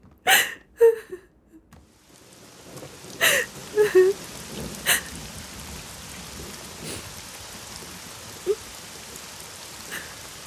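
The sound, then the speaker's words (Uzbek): Steady rain falls with a dense, even hiss. A few louder, sharper sounds break through in the first seconds, and the downpour then carries on unbroken to the end. “Yomg'irni yaxshi ko'raman. Yomg'irda ko'z yoshlaring bilinmaydi.”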